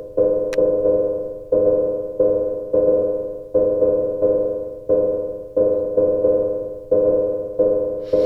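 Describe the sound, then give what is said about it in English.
Two analog synthesizer sequencers play random programmed patterns together: many short, decaying mid-pitched synth notes in an even, plodding rhythm, repeating with little variation. “So when we start the two sequencers by themselves, it sounds like this. It's boring.”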